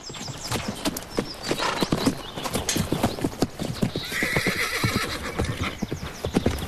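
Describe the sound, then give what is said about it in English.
A buckskin horse is let out of a horse box into an enclosure at a ranch. Its hooves clatter in many quick, uneven clip-clops on a hard surface, and a whinny rises partway through. “At the ranch, Tyler lets the buckskin out of a horse box into an enclosure.”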